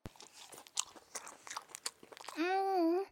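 Someone chews a steamed bun with a series of moist smacking bites at an uneven rhythm, then gives a short, sustained voiced hum.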